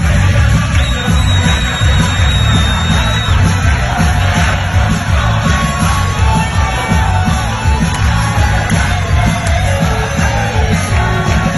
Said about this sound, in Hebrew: יש לנו קטע ממש לשמוע משם. יאללה, בוא נשמח. אלפים, אלפים ברחובות ממלאים.